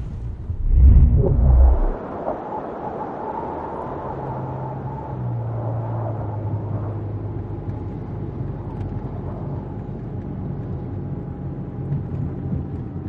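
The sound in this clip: A car engine turns over with a loud, low, rumbling burst, then settles into a steady, droning hum as the car pulls away and keeps driving.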